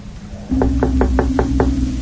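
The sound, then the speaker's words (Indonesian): Knocking on a door: six evenly spaced, sharp raps in a quick steady rhythm over a low continuous hum, with no voices. “Ku ketuk pintu itu, tapi sama sekali tidak ada jawaban.”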